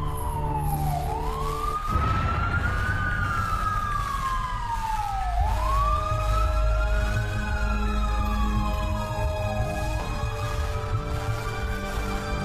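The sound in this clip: An ambulance siren, arriving for an unconscious woman, wails continuously in slow, loud sweeps that rise and fall in pitch over a low background rumble.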